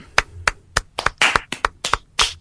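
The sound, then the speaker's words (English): Hands clapping over an internet video call make a quick, steady run of sharp claps. They sound thin and slightly distorted and are heard alone, with no voices. “That clapping sounds terrible over Skype.”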